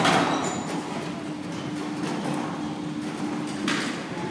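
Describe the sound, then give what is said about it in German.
A large gate closes in an entrance hall, heard as a faint, long scraping and rolling slide with a sharper knock near the end. “da schließt sich schon, Sie hören es, liebe Zuhörerinnen und Zuhörer, das große Tor.”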